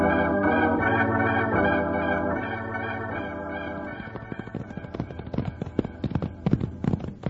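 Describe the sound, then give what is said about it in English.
Horses galloping off, one of them a white horse, in a Western drama: steady music gives way to a rapid, irregular clatter of hoofbeats that grows louder toward the end. “He's riding a white horse. Run for the horses, Jingles.”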